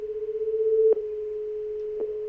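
A busy tone follows a disconnected phone call: a steady, mid-pitched electronic hum with two sharp clicks cutting through it, and no voices.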